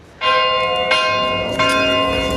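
Church bells ring for peace on the International Day of Peace, with several loud strikes whose bright, overlapping tones sustain and shimmer between blows.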